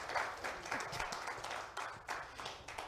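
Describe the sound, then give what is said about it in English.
A church audience applauds to welcome new members into the family during a Holy Week service, faint clapping that swells in a few uneven bursts and fades between them. “Give them a hand. Let them know they're welcome.”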